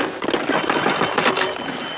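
A telephone bell rings without a break for about two seconds, a dense, bright metallic jangle that holds a steady loudness from start to end.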